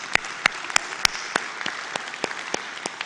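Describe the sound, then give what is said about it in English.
Hand claps in a room, offered as applause for an online and television audience during a church service: about ten sharp, evenly spaced claps in a steady rhythm over faint background hiss. “For those of you in the room, would you please give a big hand to our online and television audience?”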